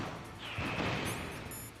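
Missiles explode in the video game Metal Gear Solid Integral with a deep boom and a rushing roar that swells and lingers, topped late by faint high electronic game tones.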